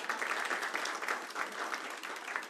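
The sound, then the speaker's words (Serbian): Applause for a waiter's birthday: a short burst of dense clapping from a group that stays fairly steady throughout. “Naš konobar inače ima rođendan, ali ne morate mu aplaudirati, već je 20 maraka mu manja dnevnica. Smeće nije izbacio prošli puta. Sad aplauz, ljudi moji.”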